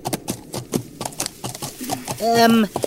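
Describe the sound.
Horse hooves clip-clop in a steady trotting rhythm as a rider heads ahead on a journey along a country road. A short voiced sound rises near the end, over the hoofbeats.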